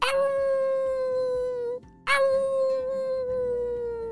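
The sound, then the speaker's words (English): Jackals howl at dusk, two long, steady, high wailing howls with rich overtones. A brief silent gap separates the first howl from the second. “Whoa, those jackals sound like they're getting close. Where do they come from? I didn't see them anywhere, said Malachi as he was scanning the horizon again.”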